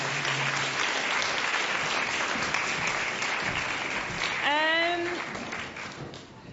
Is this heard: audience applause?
yes